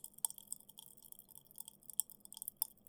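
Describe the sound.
Quiet chewing of food: faint, crisp, moist clicks and smacks in an irregular rhythm, with a few sharper crunchy snaps standing out.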